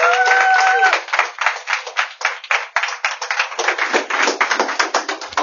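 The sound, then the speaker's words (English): Audience applause welcoming a speaker at a members' meeting: dense, steady clapping at first, then thinning into more scattered, uneven claps toward the end. “It's time now, VBN members and most welcome guests, to put our hands together and welcome Rod Jans.”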